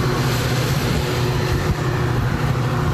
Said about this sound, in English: There's a train, it's kind of loud